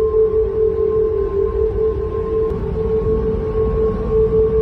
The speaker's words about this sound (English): newly installed railings along the bicycle path on the bridge have resulted in a noticeable side effect. High winds blowing through the railings have caused the bridge to produce a sound